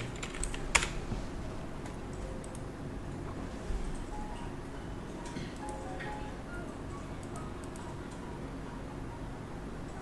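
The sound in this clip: Typing on a computer keyboard: faint, scattered clicks and taps at an irregular pace over a steady background hiss, with a couple of slightly sharper keystrokes standing out.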